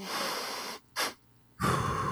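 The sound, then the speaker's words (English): Calming breathing: a breathy inhale through the nose, a brief pause, then a second shorter, sharper sniff. After another gap comes a forceful exhale out of the mouth. “it's two inhales through the nose. And the second one is shorter and sharper, and then followed by a longer exhale out of the mouth.”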